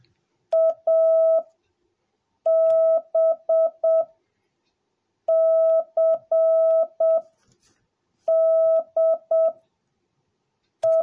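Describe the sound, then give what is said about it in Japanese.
Morse code tones spelling the letters A, B, C, D and E in order. Steady mid-pitched beeps form short dots and longer dashes in separated groups, with the final single tone at the very end and no talk. “A, B, C, D, E と打ちますので、音に合わせて書き取っていってください。”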